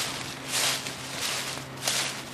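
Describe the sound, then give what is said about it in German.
Footsteps crunch and rustle through dry fallen leaves as someone walks cross-country. The steady, soft crackling swells in a few broad waves, with no voices. “Da sind sie wieder, die Schritte im raschelnden Laub. Sie gehen querfeldein.”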